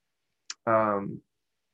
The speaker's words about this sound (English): why don't we test this because I don't know this for a fact, but I don't believe that Simplero is an integration partner. We're gonna find out together. So if I click on continue,